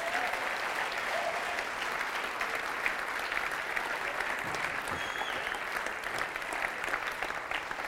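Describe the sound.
Audience applause welcoming a speaker to the stage: dense, even clapping from a crowd, sustained at a steady level throughout without a break.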